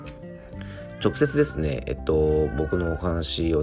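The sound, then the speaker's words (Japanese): A house cat meows a few times in short, tonal calls beneath a man who is talking. “なんか猫の声がしますね。 これは、聞こえるかな？ 僕のお家の猫ですね、”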